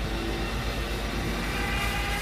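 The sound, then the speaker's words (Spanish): An airplane flying over in a played recording: a steady, dense droning roar with a pulsing low throb underneath, holding at an even loudness with no voices. “Y acá viene el trabajo de él, escucha, el avión.”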